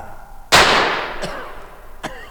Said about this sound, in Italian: Ha sparato davvero.